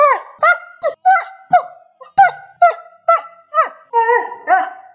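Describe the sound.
A dog barks in a long, regular series of sharp, loud barks separated by short pauses, each bark clipped and mid-pitched, with no other voices.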